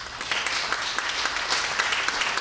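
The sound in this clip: An audience clapping: dense, steady applause from many hands, with quick overlapping claps that hold an even loudness throughout.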